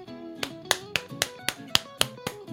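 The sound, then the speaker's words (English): An audience claps in a steady, even beat, each clap a sharp, crisp smack, over a low sustained tonal background. “You guys have to clap.”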